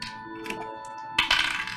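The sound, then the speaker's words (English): Two ten-sided dice clatter down during a tabletop role-playing game: a sharp impact, then a brief rattling tumble over a faint steady hum. “Okay, I rolled a 3.”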